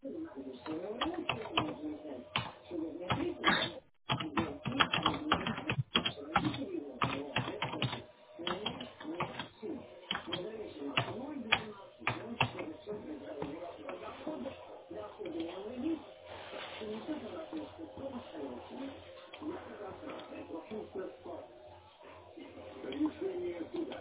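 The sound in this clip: A written complaint typed on a computer keyboard produces many quiet, quick keystroke clicks in uneven bursts and pauses over about twenty seconds, with pigeons cooing softly alongside.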